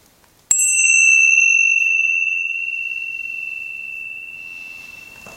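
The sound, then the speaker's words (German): A Tibetan singing bowl is struck once to begin a meditation, producing a sudden bright strike followed by a clear, high, pure ringing tone that sustains and slowly fades for several seconds. “Und wenn du die Klangschale hörst, beginnen wir mit der Meditation.”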